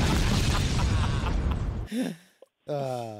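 A bomb explosion sound effect: a loud, roaring blast lasting nearly two seconds cuts off into a brief whoosh, then a short silence and a burst of ringing electronic tones.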